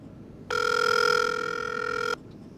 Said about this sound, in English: It's dialing right now.